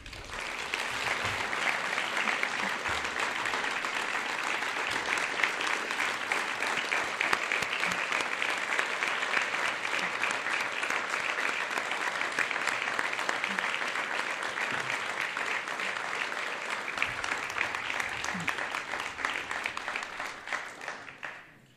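A crowd applauds to congratulate Fort Recovery's Citizen of the Year at an award ceremony. Many hands clap in a steady, dense patter that holds for about twenty seconds before tapering off at the end.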